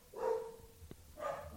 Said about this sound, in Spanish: el podcast puede tener perros.